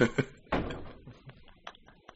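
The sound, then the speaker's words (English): A door opens with a woody knock and rattle, followed by a few softer bumps and creaks that fade out over about two seconds. “I knew that door was going to open. I felt it.”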